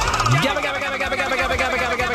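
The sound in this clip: A prize wheel spinning, its pointer giving a fast, continuous run of rattling clicks, with a voice briefly heard over it.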